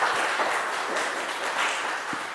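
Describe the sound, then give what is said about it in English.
An audience at a software conference session applauds with dense, steady clapping that stays loud and even from start to end. “Please give a big round of applause and then we'll begin with the session.”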